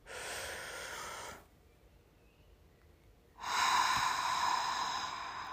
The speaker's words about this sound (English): Take a deep breath in.